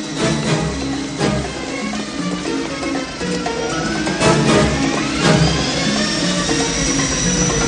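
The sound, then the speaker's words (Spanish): A light aircraft taxis over rough, uneven terrain, with a loud, steady engine roar and a few clunking bumps. In the second half, a whining tone climbs in pitch. “De pronto, Nick y David descubren que la avioneta, rodando por el abrupto terreno, les sigue los talones.”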